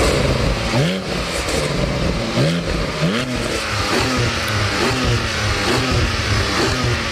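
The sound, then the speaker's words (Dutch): Engine revving from a Porsche 718 Cayman GT4 sports car on a driveway: a loud, continuous engine roar with a series of rising rev blips, the first few sharpest, then steadier throttle. “Een Porsche 718 Cayman GT4.”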